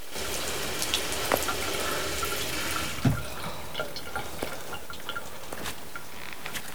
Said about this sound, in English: where a tap is running in the sink. He turns it off.